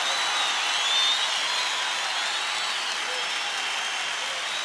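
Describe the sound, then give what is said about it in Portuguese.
Dense applause from a church audience forms a steady, crackling wash of many hands clapping, with no breaks for the whole stretch. “Aplaudam mais forte, porque ele é digno.”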